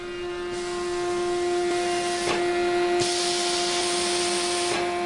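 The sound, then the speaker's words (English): Pumps in an industrial bread bakery sucking ingredients into mixing bowls give a loud, steady rushing hiss over a constant electrical hum, with a few brief surges in the hiss. “at Dave's Killer Bread in Milwaukee, where pumps suck 2,000 pounds of ingredients into mixing bowls.”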